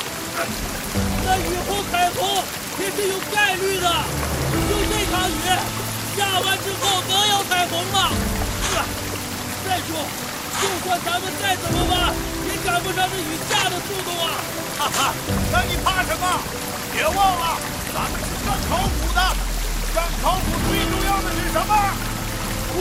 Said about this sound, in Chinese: 这雨也太大了吧！